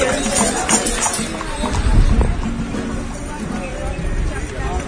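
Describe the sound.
Clip-clop of hooves as empty horse-drawn carts overtake on the left during a pilgrimage procession. The trotting runs continuously beneath a babble of voices and outdoor noise.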